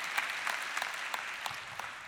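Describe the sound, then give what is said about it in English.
Church audience applauding to welcome others joining the service, a steady, faint wash of clapping hands that holds evenly from start to finish. “Would you put your hands together and welcome with me all those that are joining us right now?”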